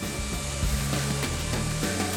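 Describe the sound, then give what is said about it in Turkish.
Robots sand and drill legs after optical inspection, giving a continuous loud grinding, whirring machine noise with a few short, sharper bursts, and no talk. “Optik olarak incelendikten sonra mükemmel olmaları için bileğlenip zımparalanıyor ve deliniyorlar.”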